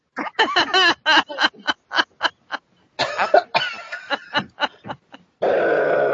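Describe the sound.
A voice imitating a belch after drinking soda: a rapid string of short guttural grunts and gulping bursts, then a longer, rasping, noisy burp at the end.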